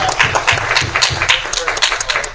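Audience applause for contestants at a live quiz game: dense, steady clapping that stays loud throughout, with some crowd noise mixed in.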